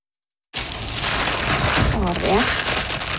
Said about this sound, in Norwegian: pakker 400 splitter nye par med solformørkingsbriller ut av ei eske.